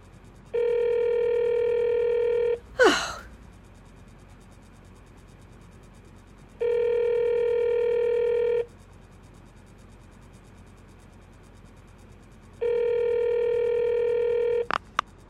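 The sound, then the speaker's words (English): Telephone ringing tones on a call placed to a police department: three long, steady buzzing tones of about two seconds each, evenly spaced with silence between, plus a brief scraping noise after the first. “Do you have to dial? Can't you ring them?”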